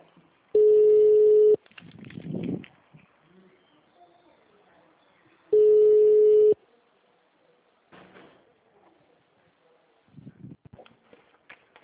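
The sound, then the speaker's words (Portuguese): Ringback tones sound on an outgoing telephone call to a customer. Two steady, one-second mid-pitched tones come about five seconds apart, with faint scattered clicks and rustles in the quiet between them. “Tô ligando aí.”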